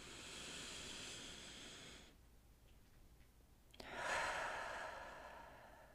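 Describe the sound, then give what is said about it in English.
A slow, deep breath: a long, airy inhale, a quiet pause, then a breathy exhale that rises in loudness, all soft and with no talk. “let's just stop and take a really nice deep breath. We'll do another one of those.”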